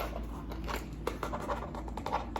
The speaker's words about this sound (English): let me just write that down in a different notepad. Let me get a different notepad.